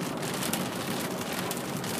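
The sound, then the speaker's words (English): Heavy rain falls while driving into a large thunderstorm, a dense, steady hiss that fills the whole clip at an even, fairly loud level with no gaps and no voices. “starting to rain pretty heavy”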